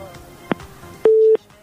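Telephone busy tone on a dropped call-in line: a single steady mid-pitched beep lasting about a third of a second, set between brief clicks, with no voices.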